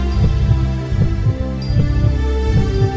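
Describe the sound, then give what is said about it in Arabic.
A heartbeat sound effect of deep, low thuds in a steady, paired rhythm, playing over a sustained, loud humming drone with no voices. “نبضات قلبك تزيد سرعة.”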